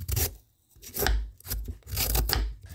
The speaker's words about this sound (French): Commencez par couper la viande avec le couteau.